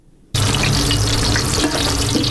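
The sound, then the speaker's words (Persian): Food fries in a women's restaurant kitchen in Herat. After a brief quiet moment a loud sizzle starts abruptly and hisses on steadily, with some stirring texture and no voices. “رابعه نوری مصروف پختن غذا در یکی از معدود رستوران های ویژه زنان در ولایت هرات است.”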